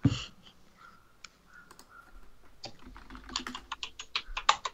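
Clicking and typing on a computer while looking something up on a website: a few sparse, faint clicks at first, then a quicker, busier run of many keystrokes and clicks in the second half.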